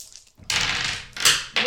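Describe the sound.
Dice rattle and tumble as they are rolled in a tabletop game, heard as a few short bursts of dry clattering noise with no talk over them.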